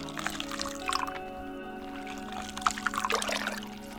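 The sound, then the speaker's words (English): Water runs and splashes over hair as it is rinsed during a haircut, a steady pouring wash with brief dripping bursts over a faint tonal hum. “Rinse time.”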